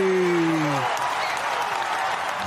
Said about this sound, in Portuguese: Palmas